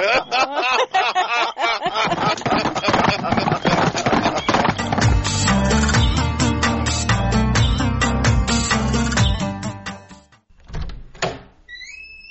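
Hoofbeats of a ridden horse driving nomads' sheep flocks, a rapid, loud clip-clop of many closely spaced knocks that fades out near the end.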